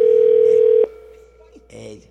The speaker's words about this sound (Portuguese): Pronto, vou ligar aqui